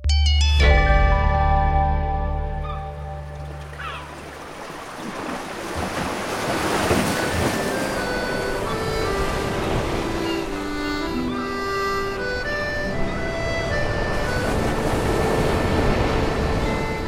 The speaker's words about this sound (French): Au sud-ouest de la Bretagne, au milieu de l'océan qui scintille, c'est en la plus grande et la plus enchanteresse des îles bretonnes, Belle-Île en mer.